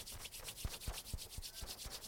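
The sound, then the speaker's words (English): Hands rubbing briskly together at the start of a yoga class: a dry, papery swishing made of rapid repeated strokes at a steady rhythm, fairly soft and heard alone without talk. “And rub your hands together.”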